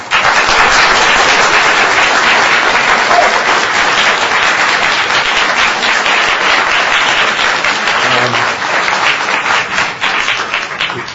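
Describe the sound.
Sustained applause from an audience welcoming a speaker to a lecture on Zionism, dense, even clapping that stays loud and steady for about eleven seconds with no voices standing out.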